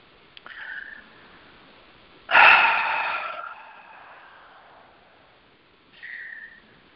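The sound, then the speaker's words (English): Slow, deep breaths taken during a guided centering exercise: three airy breath sounds, the middle one much louder and longer as it slowly fades, with quieter, shorter breaths before and after. Nobody speaks. “Taking some long, slow, deep breaths in order to do that.”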